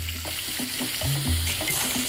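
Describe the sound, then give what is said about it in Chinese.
Sea snails sizzle as they are stir-fried over high heat, with a steady bright hiss of frying and the repeated scrape and clatter of stirring in the pan, fairly loud and continuous with no talk. “对于坑螺的烹饪，当地人喜欢大火爆炒。”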